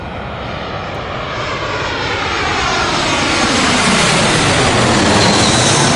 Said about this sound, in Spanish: el vuelo que esperabas aterrizó.